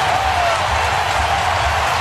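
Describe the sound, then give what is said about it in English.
Baseball stadium crowd noise during a Brewers game against New York, heading to the bottom of the fifth inning. A broad, steady roar with a low rumble underneath holds evenly throughout. “Crowd coming alive as we go to the bottom of the fifth inning.”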